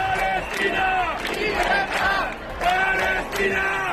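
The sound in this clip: Crowd of thousands of protesters demonstrating in Barcelona, shouting and chanting together in loud rhythmic waves, many voices merging into a continuous roar.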